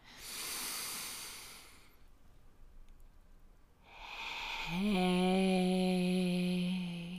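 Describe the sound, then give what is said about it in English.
A person breathing out slowly. A soft, breathy rush gives way to a quiet gap, then a long, drawn-out exhale with a steady, low voiced hum running through it. No one speaks. “Now breathe in his breath in you. Breathe it back to him.”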